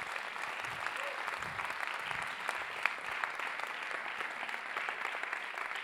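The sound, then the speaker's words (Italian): Audience applause at a group sharing meeting: dense, steady clapping from many hands that fills the whole stretch at an even, moderate level, with no single voice standing out. “Che bello, vogliamo fare un applauso a Rosa?”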